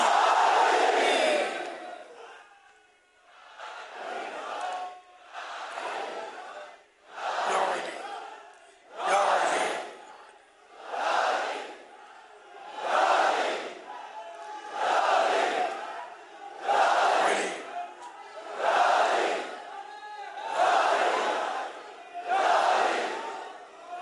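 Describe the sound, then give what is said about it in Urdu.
A crowd shouting in unison in response to the Naara-e-Haidari slogan, loud chanted surges that swell and fade over and over in a steady rhythm, each burst separated by a short pause. “نعرہ حیدری”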